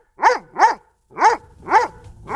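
A dog barks four times in an uneven rhythm: two quick, loud, sharp barks, a short pause, then two more, with no talking.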